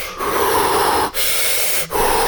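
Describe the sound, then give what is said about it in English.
Rapid hyperventilating breaths flow in and out with almost no pause, producing a steady, loud, airy rush broken only by very brief dips between breaths. “Which means like there's no pause in between the inhale and the exhale. And it is hyperventilating.”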